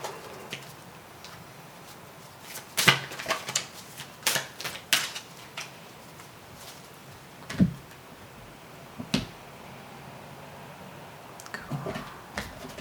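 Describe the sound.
A deck of tarot cards being shuffled makes scattered crisp clicks and taps, faint and irregular, arriving in small clusters with quiet pauses between them.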